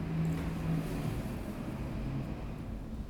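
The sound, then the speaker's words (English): A truck passing nearby: a steady, faint, low engine rumble that holds evenly throughout without a clear peak. “can you hear the truck?”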